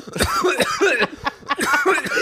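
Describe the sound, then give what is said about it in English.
A man coughing in a rapid fit of several harsh, rasping coughs with short breathy gaps between, loud and uneven in rhythm. “when he coughed. When he coughed”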